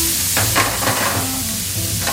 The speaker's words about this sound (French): On va laisser colorer un petit peu les lardons.